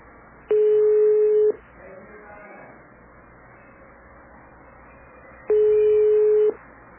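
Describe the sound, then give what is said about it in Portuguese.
Ringback tone of an unanswered telephone call to a notary office: two steady one-second beeps, about four seconds apart, over faint line hiss. “Cartório não tá atendendo.”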